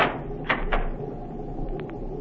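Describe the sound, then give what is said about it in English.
A cabin door on a Navy cruiser is locked: two short, sharp clacks close together, then a couple of faint ticks over a low steady background hum. “You may lock the door now.”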